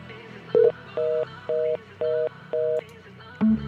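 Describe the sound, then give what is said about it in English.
Telephone tones sound as a call is placed to a landline: six short, evenly spaced electronic beeps at a steady pitch, the last one lower. “So see if she'll answer her landline.”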